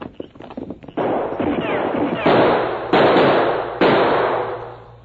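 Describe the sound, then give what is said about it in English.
Gunshots fired from behind a large rock on the side of a canyon: several loud, sharp cracks, each trailing off in a long ringing decay, after a quick patter of clattering taps at the start. “Someone shooting behind large rock on side of canyon.”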